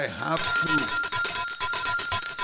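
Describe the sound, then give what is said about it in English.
A bell rings loudly after a brief moment of talk, with bright sustained high tones and quick repeated strikes that continue to the end. “I must ring the bell.”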